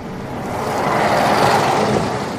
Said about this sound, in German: Da fahren Autos, Motorräder, Busse,